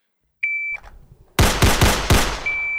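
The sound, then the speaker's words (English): Pistol shots fired from the holster at a shooting range's 7-yard line: a shrill electronic beep, then a fast burst of loud, sharp cracks in quick succession, followed by another high steady beep. “On my command, you will place 2 rounds in the lower left circle from the holster, 2 rounds in 2 seconds. Shooters ready, stand by.”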